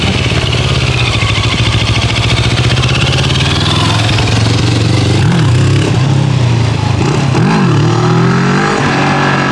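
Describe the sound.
A Moto Morini motorcycle is ridden in a loud, continuous engine drone with rushing wind. Its pitch wavers and shifts several times toward the end.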